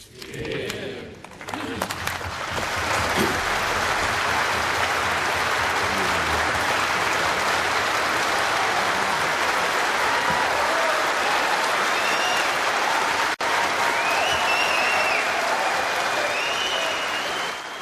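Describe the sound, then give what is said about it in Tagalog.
Long, loud applause fills the Australian Parliament after a speech. It swells within the first couple of seconds into a dense, steady roar of clapping that holds for over fifteen seconds. “Sa pagtatapos ng talumpati, tumulo ang mga luha, narinig ang mga pagbati at mahaba't malakas na palakpakan”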